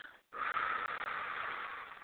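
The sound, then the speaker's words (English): A long, slow exhale after a held deep breath: a steady, breathy hiss that starts after a brief silence and runs unbroken for about two seconds, alone with no talk. “Breathe all the way in. Hold it. One, two, three. And then slowly let it out.”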